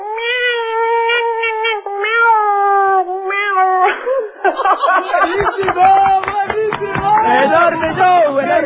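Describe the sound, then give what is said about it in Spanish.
A person imitates their pet cat meowing with a string of drawn-out, wavering meows, followed by bursts of laughter and lively chatter from several voices. “Este é o politono? Eu imitaría a miña gata.”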